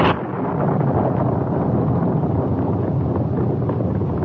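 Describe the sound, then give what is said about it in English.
A mine blast high on a hillside sets off a sudden deep roar. It settles into a loud, sustained, heavy rumble that holds steady for several seconds, with no voices. “Suddenly, there came the sound of a blast, which came from high on the hill they were skirting.”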